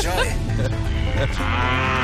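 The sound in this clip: A cow moos loudly in a long, low, drawn-out call that fills the whole stretch, with other sound layered over it.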